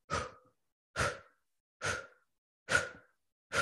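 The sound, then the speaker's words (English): Sharp, forceful exhales pushed out through the mouth as the belly snaps in, part of a breathing exercise: short breathy bursts about one per second, each falling off quickly into silence, with no talking. “It's just an exhale through the mouth and you snap your belly in. So it sounds like this.”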